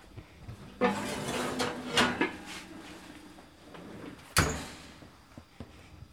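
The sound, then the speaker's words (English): A heavy Dutch oven is pulled from a home kitchen oven with thick pot holders while sourdough bread is being baked. Faint clunks and scraping of metal come in a few bursts, with one sharp clack near the end. “I now have two very thick pot holders, and I'm going to pull that Dutch oven out of the oven.”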